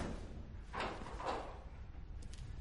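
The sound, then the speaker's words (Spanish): Someone tries to open the autopsy room door: two muffled, dull thuds of the handle and door in quick succession, then only faint low rumble. “Camina hasta la puerta de la sala de autopsias. Mira atrás e intenta abrirla.”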